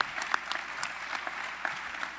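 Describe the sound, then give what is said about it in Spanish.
Audience applause at a jazz festival for a musician, a brief burst of steady, moderately quiet clapping with a few sharper individual claps standing out. “Y también les pido otro gran aplauso, por favor, para recibir al maestro Edgar Dorantes Dos Amantes”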